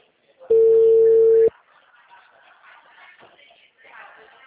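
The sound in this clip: A single steady telephone ringing tone sounds for about a second, then a person begins talking.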